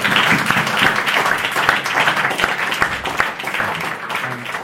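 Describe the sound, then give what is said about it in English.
Applause from an audience for a guest at the close of a talk: a dense, steady patter of many hands clapping that holds at a fairly even level throughout. “can we all give Jamie a round of applause?”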